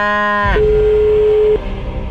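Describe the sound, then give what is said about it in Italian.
A brief cow moo is heard as a low, harmonic bellow that slides downward at its end. A steady electronic tone lasting about a second follows immediately, then a quieter background. “La vacca si chiama vacca.”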